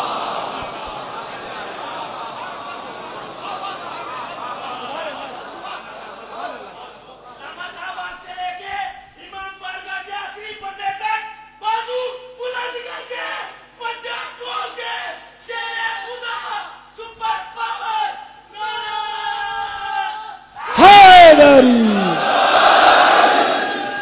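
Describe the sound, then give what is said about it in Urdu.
Crowd chanting the Naara-e-Haidari slogan: a low crowd murmur, then a man's voice speaking in phrases, then a sudden loud collective shout from the crowd near the end. “نعرہ حیدری، آواز بلند، نعرہ سلامات.”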